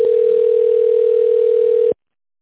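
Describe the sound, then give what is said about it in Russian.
A telephone line tone sounds while a call is being connected to an operator, a single steady mid-pitched tone held unbroken for about two seconds before it cuts off abruptly. “Для соединения с оператором оставайтесь на линии. Выполняется соединение с оператором.”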